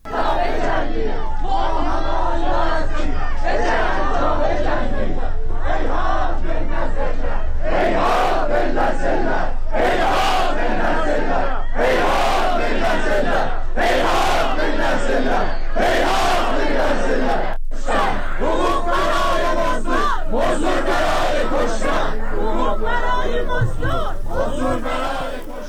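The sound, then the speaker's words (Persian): A large crowd chants loudly in rhythmic, repeated phrases at a funeral in Tabriz for a medical student killed during protests. The massed voices stay strong and dense throughout, with short breaks between shouted lines. “صدای تبریز رو میشنویم، مراسم خاکسپاری آیلار حقی.”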